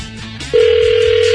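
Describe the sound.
Ringback tone of a phone call that goes unanswered: a loud, steady electronic tone starts about a third of the way in and holds to the end, after a brief stretch of low, muffled sound.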